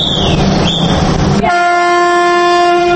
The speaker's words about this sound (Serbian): Po voznom redu voz će saobraćati svakodnevno od Sarajeva do Beograda i obratno